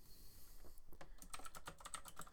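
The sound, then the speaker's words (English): Clacky typing on a loud computer keyboard: a quick, steady run of sharp key clicks, sparse and faint at first, then crisp and busy through the rest. “I apologize if you can hear my typing right now. I got this loud keyboard.”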